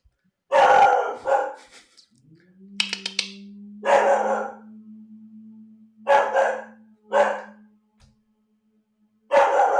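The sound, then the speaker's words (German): A dog barks in several short bursts of sharp barks separated by irregular pauses. A steady low hum sounds beneath the middle of the sequence. “Das ist der Hund.”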